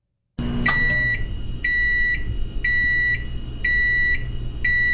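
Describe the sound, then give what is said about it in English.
Microwave oven beeping on and on after its door has been opened: a high electronic tone sounds in five short bursts, roughly once a second, over a low steady hum. “microwaves that keep beeping after you've already opened the door. That is really annoying.”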